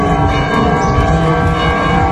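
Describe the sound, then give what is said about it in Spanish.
Church bells in A Coruña ring out to mark the start of a Corpus Christi procession, a dense, loud, continuous peal of overlapping metallic tones with no pause. “Campanas en A Coruña que marcaban el inicio de la procesión entre San Jorge y la colegiata de Santa María del Campo.”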